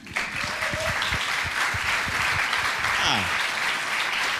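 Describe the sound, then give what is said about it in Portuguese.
Audience applause at a live stage show, dense, loud clapping that bursts in abruptly and holds steady for about four seconds without fading. “Então não batem palmas.”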